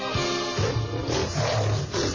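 Lions roaring in a Roman Empire arena scene, a loud, continuous, rough roar that holds without pause.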